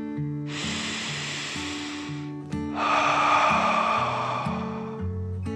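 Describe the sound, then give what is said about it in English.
A deep breath drawn in and then let out, two long airy whooshes of similar length set over soft, steady low music tones in a calm bedtime story. “Brian and Javier took a deep dragon breath in and out”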